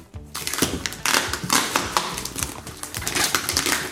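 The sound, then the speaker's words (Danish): Heavily taped package being unwrapped: continuous loud crinkling, crackling and ripping of tape and wrapping, with many sharp bursts throughout and no talk. “Nu åbner jeg den og ser, hvad det er, han er kommet med. Okay. Han er godt nok godt pakket ind.”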